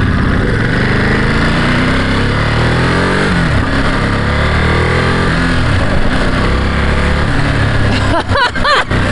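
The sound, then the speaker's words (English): A car engine pulling away in first gear off a driveway, a loud, steady, rumbling drone throughout with slight shifts in pitch and a brief change in tone near the end. “We're in first gear, let's get it off the drive.”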